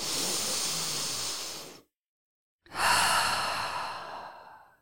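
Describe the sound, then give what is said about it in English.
A deep breath: two long, breathy rushes of air separated by a brief silence, one drawn in and one let out. The sound is soft, steady and alone, with no speech. “Wherever you are, whoever you are, however you are, take a deep breath.”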